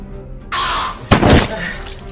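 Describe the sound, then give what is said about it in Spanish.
Glass shatters during a violent struggle: a sudden loud crash with a bright spray of breaking shards, preceded by a noisy rush. “Una lluvia de cristales cayó sobre mi cabeza.”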